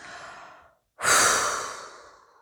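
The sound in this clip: Breath released during a guided relaxation breathing exercise: a breathy sound fades out, then after a brief silence comes a long, loud, airy exhale that slowly trails off.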